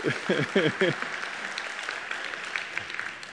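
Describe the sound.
An audience applauds at a church gathering as people rise to stand, a steady wash of clapping that carries on at even loudness throughout. A few spoken syllables cut in near the start.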